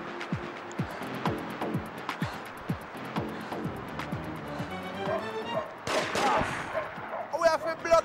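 Gunfire in the video game Grand Theft Auto IV: many sharp shots crack in an irregular rhythm, some in quick bursts, with denser, louder rapid fire toward the end.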